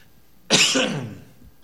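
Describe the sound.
A single throat clearing: one short, loud, rasping burst that fades out over about half a second, heard alone in a quiet setting.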